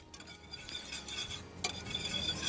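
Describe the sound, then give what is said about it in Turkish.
Food being stirred in a pot, a faint, continuous scraping and rustling with occasional light clinks of utensil against metal. “Bunu karıştırıyorum.”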